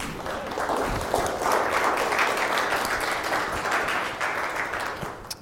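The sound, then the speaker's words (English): Audience applause welcoming a speaker: dense, steady clapping from many hands that holds for several seconds and tapers slightly at the end. “So please put your hands together to welcome Jim.”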